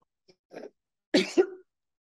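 A person coughing after something went down the wrong pipe: a faint throat sound, then two hard, rough coughs in quick succession, alone with no speech.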